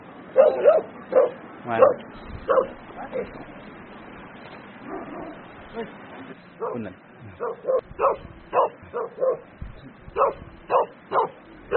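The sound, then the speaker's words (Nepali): Dogs bark in repeated sharp bursts as one dog chases another near a yak herders' hut in Sikkim. There are many yapping barks, some in quick clusters, with brief lulls between them. “खेदायो यार हाम्रो कुकुरलाई त, इन्डियाको कुकुरले, सिक्किमको कुकुरले नेपालको कुकुर खेदाइदियो।”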